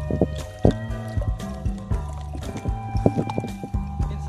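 Cider pours from a bottle held high into a glass, with quiet, uneven splashing and gurgling in a string of soft, irregular bursts.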